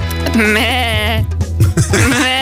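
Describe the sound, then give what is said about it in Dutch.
Sheep bleating: a loud, drawn-out, quavering bleat with a wavering pitch, followed by shorter broken calls. “Het is vandaag ook de dag van het schaap. En maar mekkeren.”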